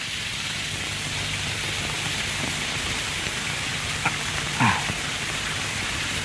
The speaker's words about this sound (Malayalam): എന്തൊരു മഴ! തൊഴുത് പുറത്തിറങ്ങിയപ്പോ തുടങ്ങിയതാ.